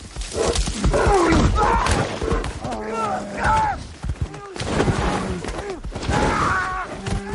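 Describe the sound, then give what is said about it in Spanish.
Grizzly bear charging among trees, with deep growls, heavy thuds and crashing bursts in an irregular, loud sequence while a man speaks over the commotion. “Un gran oso pardo corre hacia él.”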